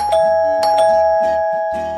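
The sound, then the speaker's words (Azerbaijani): Loud doorbell ringing: several struck chime notes ring out over a sustained bright tone that lingers and slowly fades, with no talking. “Qapının zəngi güclücə ucalır.”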